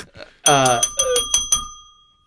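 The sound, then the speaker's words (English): A bell rung over and over, with several quick, bright strikes whose clear ringing tones overlap and linger before trailing away, a voice heard alongside. “It's enough out of you. You and that bell. Starting to get on my nerves.”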